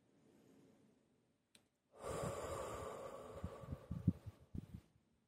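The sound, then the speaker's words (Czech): A person takes a slow, deep breath in during a guided relaxation exercise. The airy, breathy rush is quiet and lasts a few seconds, with a faint catch toward the end. “Nádech. Výdech. Ještě jednou nádech.”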